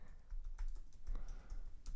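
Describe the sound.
Typing on a computer keyboard: many quick, faint keystroke clicks in an uneven rhythm, with no talk.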